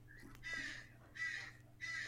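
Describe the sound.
A bird gives three harsh, raspy crow-like caws at an even pace, faint and with no talk over them.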